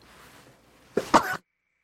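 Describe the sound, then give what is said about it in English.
A short, stifled sneeze bursts out in a couple of sharp, breathy blasts lasting about half a second, following a stretch of faint low background noise and ending in silence. “I've talked about before the horribleness of feeling like you have to sneeze while you're live, but it's just the nature of being live, so you got zombie sneeze.”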